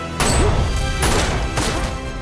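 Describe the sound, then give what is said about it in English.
Three loud, sharp handgun shots ring out in a film scene as a character fires at another, each blast a broad crack spaced roughly half a second apart. “Tree shoots and the bullets send Toombs reeling back.”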